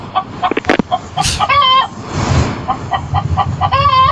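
An agitated chicken clucks loudly in a room, giving repeated squawking calls in quick, uneven bursts.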